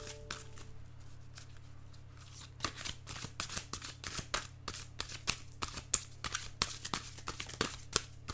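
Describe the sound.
A deck of Cosmic Guidance oracle cards being shuffled: many crisp, rapid flicks and slaps that grow louder and more frequent, over a low steady hum.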